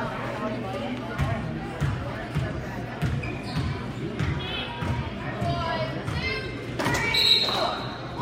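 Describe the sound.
A basketball dribbled on a court during a youth game: repeated thudding bounces in a loose rhythm under steady crowd noise and voices.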